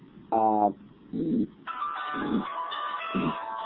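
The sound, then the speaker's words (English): An incoming call rings on a phone: short tonal bursts, then a longer sustained ringing tone at fairly even loudness. “sorry, I got a phone call.”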